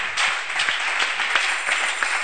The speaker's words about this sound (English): You can clap your hands.